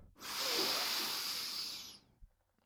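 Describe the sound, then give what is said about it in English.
A deep breath drawn in through the nose during a guided breathing exercise: one long, steady airy hiss lasting about two seconds that cuts off sharply, followed by a soft, faint thump. “So, we're going to do it one more time. We're going to breathe in through the nose,”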